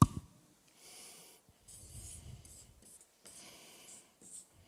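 A pen scratches out a simple sketch in three rubbing, scratchy bursts separated by short pauses, with a sharp tap at the start.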